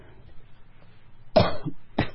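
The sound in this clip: An old man coughs a couple of times, harsh rasping bursts breaking a quiet stretch of faint breathy background.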